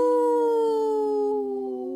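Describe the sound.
Human voices imitating wolves, with a dog joining in: one long, loud, sustained howl whose pitch drifts slowly downward for about two seconds, with no talk.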